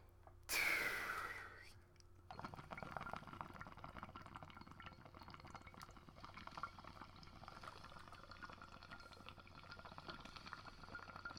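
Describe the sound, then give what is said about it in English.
A smoker takes a bubbling, gurgling inhale: a brief loud airy rush at the start, then a long, steady stretch of soft bubbling and crackle lasting nearly ten seconds. “I'm all lit up. Let's fucking smoke this bad boy.”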